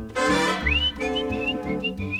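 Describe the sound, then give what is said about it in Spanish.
A person whistles to call a girl to the window: clear, high whistled notes, first a long upward-sliding tone, then several shorter notes in a loose rhythm over a soft low background. “A mi chiquita yo le chiflaba, y a la ventana ella se asomaba”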